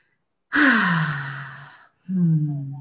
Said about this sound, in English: All right, so we'll take a nice deep breath.